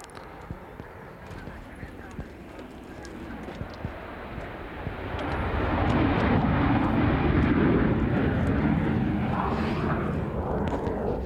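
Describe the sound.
Broad, rumbling roar of a hijacked airplane taking off, holding steady at first and then swelling noticeably louder about halfway through before continuing as a sustained engine drone.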